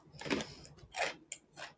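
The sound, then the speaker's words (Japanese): Someone eats crunchy lattice-cut potato chips, with faint, crisp crunching bites in a few bursts separated by brief quiet. “ちょっと網じゃが食べますね。”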